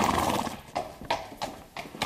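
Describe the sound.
Hooves of a horse being led to be saddled clip-clop in a slow, even walk, with several distinct, sharp strikes spaced apart over a low background, and no voices.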